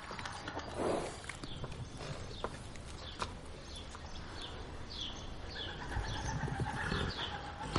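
A horse in the yard of a house, its hooves clip-clopping and shifting amid steady outdoor noise, while birds chirp with short high calls through the second half.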